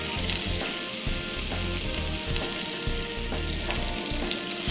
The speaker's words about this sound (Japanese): 今フライパンにオリーブオイルが入りました。刻んだ玉ねぎを入れていただきます。